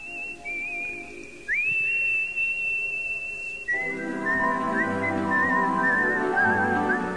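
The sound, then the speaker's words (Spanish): A person whistles a sustained, high, clear note with a few quick upward slides and a wavering, trilled stretch near the end, over a steady continuous background. “No es hora de ponerse a silbar, compañero.”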